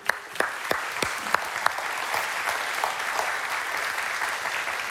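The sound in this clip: Applause from a church audience welcoming guests on stage: a few sharp early claps quickly swell into a dense, steady wash of clapping that holds at an even level to the end.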